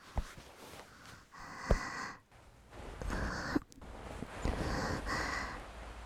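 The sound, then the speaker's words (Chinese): Breathing of a person lying in bed, a few long, breathy, airy bursts separated by short pauses, with faint clicks between them. “一转头，连你的呼吸也能听得清清楚楚的。姐姐，你的呼吸好像变快了”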